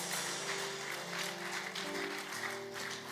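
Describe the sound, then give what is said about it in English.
A church audience claps as an offering during a worship service. The clapping is a steady, dense patter, fairly faint, lasting about three seconds. “Give the Lord a mighty clap offering.”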